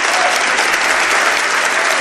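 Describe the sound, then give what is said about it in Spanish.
Audience applause for a guest at the close of an interview: dense, loud clapping that stays steady and continuous throughout, with no voices rising above it. “Os pido un aplauso para él.”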